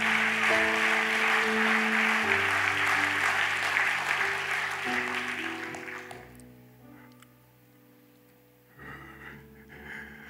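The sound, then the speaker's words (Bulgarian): A church audience claps in loud, sustained applause over held keyboard tones. The clapping fades away after about six seconds, leaving near silence before faint sounds return near the end. “О, камон, позволи си да пляскаш един път за себе си. Позволи си да си дадеш тая чест, че ти си важен. Камон!”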